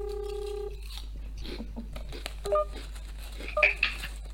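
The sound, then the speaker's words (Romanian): Phone tones sound as a call is ended and a number is dialed again. A steady multi-pitched tone opens, followed by a few short, high keypad beeps over faint rustling and clicks. “Stai că închid și sun iar.”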